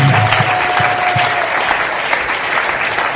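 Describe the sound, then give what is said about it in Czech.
A church audience applauds its priest with loud, dense clapping from many hands that carries on evenly for several seconds, tapering slightly toward the end. “Let us give a hand for our Father. Zatleskejme Otce.”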